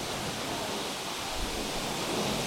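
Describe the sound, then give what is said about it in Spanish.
Hail falling during a downpour gives a dense, continuous hiss of countless tiny impacts, steady and unbroken throughout, with a faint low rumble underneath. “Es que está cayendo granizo.”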